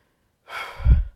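A person blowing into a microphone: one breathy rush of air swells into a low, rumbling buffeting blast, then cuts off.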